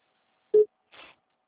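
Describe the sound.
A telephone call tone heard while dialling: a single short, low electronic beep, followed by a softer, brief hiss-like burst.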